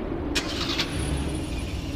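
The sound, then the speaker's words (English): A car engine starting, quiet and brief: a couple of short cranking bursts near the start, then a low, soft running rumble. “Then hop in. Hop into what? Into my car, of course.”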